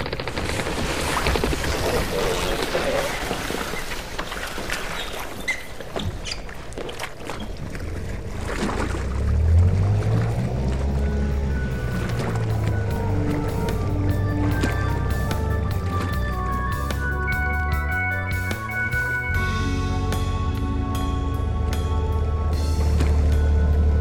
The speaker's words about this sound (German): dann lass uns jetzt mit dem Motorboot zur Montana fahren.